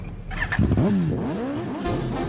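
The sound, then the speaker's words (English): Engine revving effect inside a mambo dance song: a loud, continuous mid-pitched growl that swoops up and down in pitch a few times over a steady backing. “The engine's ready.”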